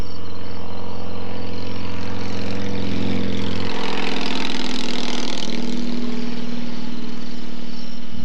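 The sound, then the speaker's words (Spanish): Cars on a road give a steady engine drone. A low rumble holds throughout, and its low tone shifts partway through, with no voices. “Los carros que pasan en la carretera.”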